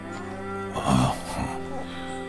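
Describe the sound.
Cattle lowing in a barn: a long, low, droning moo with a steady harmonic tone that swells briefly in the middle before settling back to a sustained hum.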